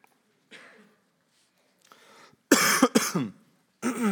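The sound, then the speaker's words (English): Coughing and throat clearing from a preacher during a church sermon: quiet breathy sounds first, then a few sharp, loud coughs bunched together, and one more burst at the end. “I'm going to try not to cough you to death this morning.”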